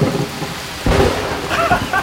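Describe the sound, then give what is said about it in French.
Heavy rain and thunder in Deauville: a dense wash of falling rain, with low thunder rumbling up in bursts near the middle and again toward the end. “Ici à Deauville, on peut lire l'inquiétude sur le visage des organisateurs du festival. Il pleut depuis plus de 24 heures.”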